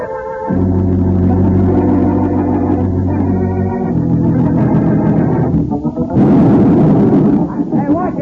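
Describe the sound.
A blasting charge set too heavy goes off at a building site foundation. A loud, rumbling burst erupts near the end and breaks a sustained droning tone, and the noise stays rough afterward.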